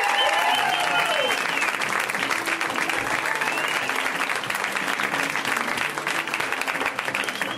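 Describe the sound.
An audience applauds to welcome a comedian to the stage, with dense, steady clapping that stays loud and even throughout. A voice is briefly audible at the start.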